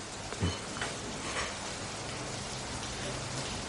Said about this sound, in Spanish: Ya no llueve tanto.